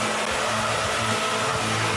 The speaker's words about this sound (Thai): ก็คุณเอาทั้งลมเป่ามันแล้วก็ยังลูบขนมันอีกด้วย